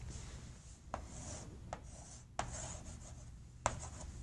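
Writing on a board during a lecture: a steady, scratchy rubbing runs throughout, broken by a few sharper taps as the writing tool strikes or lifts from the surface.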